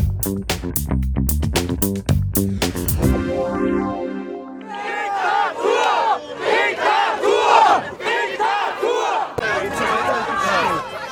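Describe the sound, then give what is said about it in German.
Demonstrators at a German protest against coronavirus restrictions shout and chant together, a loud, surging crowd that follows a few seconds of pulsing music. “So klang es letztes Wochenende in vielen deutschen Städten bei den Demonstrationen gegen die Corona-Maßnahmen.”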